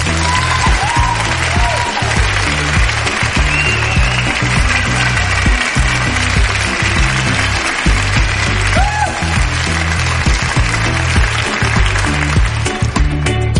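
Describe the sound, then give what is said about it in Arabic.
An audience applauds quiz winners on a radio show with loud, dense, continuous clapping that holds steady throughout. “شكرا لكم، تستاهلوا أحلى وأقوى صفقة.”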